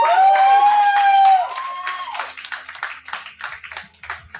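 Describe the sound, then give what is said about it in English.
A held sung note ends and audience applause takes over, many rapid claps rising after the performance and continuing loudly, then thinning somewhat toward the end. “Pretty good audience reaction on that.”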